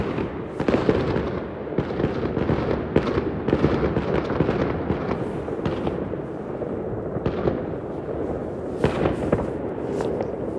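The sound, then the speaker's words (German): Firework rockets launching and bursting just after midnight, a dense, continuous barrage of irregular crackling pops and sharp bangs. Louder reports stand out from the steady crackle, with no voices. “Raketensounds. Also die Raketen.”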